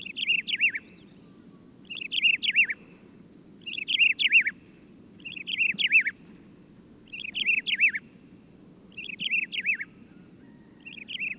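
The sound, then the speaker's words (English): A desert lark sings the same short, high, wavering phrase again and again at steady intervals of about two seconds. Each burst sounds nearly identical, over a faint low rumble in the background. “Here's the song of the desert lark.”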